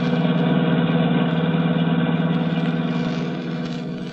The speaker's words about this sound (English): We find them now driving back to Hollywood through the beautiful San Bernardino Valley.